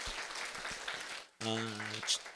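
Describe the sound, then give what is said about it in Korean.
Congregation applause at a church memorial service: a steady wash of clapping that stops abruptly and gives way to a sustained harmonic tone. “우리 수고한 분들 위해 박수 해주세요.”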